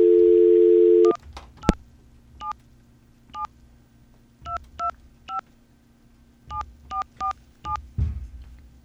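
A telephone call being dialed: a steady dial tone stops, then a series of short keypad tones follows in uneven bursts, some quick pairs and some spaced apart, clear and alone.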